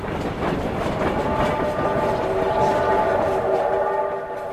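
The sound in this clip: A train slowing as it pulls in at a station platform: a steady, loud mechanical rumble and rattle, with a thin tonal whine emerging over the second half and easing slightly at the end.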